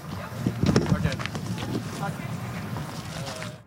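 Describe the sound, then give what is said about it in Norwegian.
Wind gusts across the microphone at an outdoor athletics stadium during pole vault and hurdles events, a steady low rumble and airy hiss lasting about four seconds, with indistinct voices underneath. “Litt krevende vindforhold er det nok i øyeblikket for stavhopperne, men det er vindforhold som kan hjelpe hekkeløperne”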